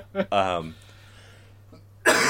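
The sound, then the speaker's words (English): A small human cough: a quick burst, then a short voiced rasp, a stretch of quiet, and another loud, harsh, noisy burst at the end. “excuse me. I'm going to cut that little cough out.”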